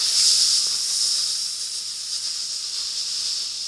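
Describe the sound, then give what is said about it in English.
Garlic sizzling in hot oil in a pan gives a steady, bright hiss that holds fairly even throughout, with no voices over it. “So I throw into the oil, a little bit of garlic. Now, what's happening is that you're starting to get that smell. You're starting to get those sounds.”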